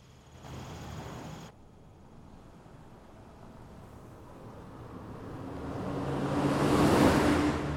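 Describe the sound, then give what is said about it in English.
A car approaches on a road beside an open field at night and drives past, its low rumble swelling steadily to a peak near the end before starting to ease off. “The car drives past and disappears into the night.”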